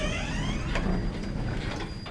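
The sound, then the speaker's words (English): Lift doors sliding shut on the 14th floor of a 1950s–60s tower block of flats in Liverpool, a steady mechanical rumble and hiss with a thin, faint tone running through it and no talking. “Doors closing.”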